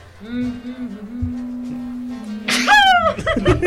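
A single sharp sneeze bursts out near the end, loud and abrupt, after a few seconds of quieter, steady low humming background sound.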